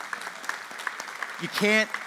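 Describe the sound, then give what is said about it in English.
Church audience clapping during a sermon, with light, scattered claps that stay faint, and a voice rising briefly near the end. “everyone clap for that, we can clap for that, amen.”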